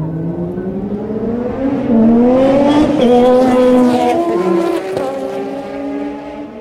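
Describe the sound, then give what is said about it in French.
Formula 1 race cars pass at moderate speed with cold engines. Their harmonic engine drone shifts in pitch, swells loudest in the middle, then eases off. “Passage plus ou moins rapide avec des moteurs froids.”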